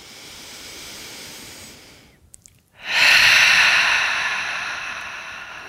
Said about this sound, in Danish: tage en dyb indånding gennem næsen. Og en fuld udånding. Gør det lige en gang til her.